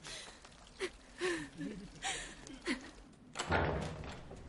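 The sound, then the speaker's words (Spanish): A door opens in a fantasy drama scene, with soft creaking and a fuller burst of sound near the end, all quiet. “La reina de Longtrellis abre una puerta.”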